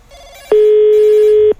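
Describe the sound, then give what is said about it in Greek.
A telephone rings once while a prank call is being placed: a single loud, buzzy electronic ring burst lasting about a second, with faint background noise before and after. “Ξαναπάρ' το τηλέφωνο, γρήγορα.”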